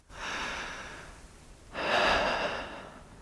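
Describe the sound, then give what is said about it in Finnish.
Two long, deep breaths taken on request, each an airy rush of air, the second louder and fuller than the first, with no talk over them. “Ja hengitä syvään.”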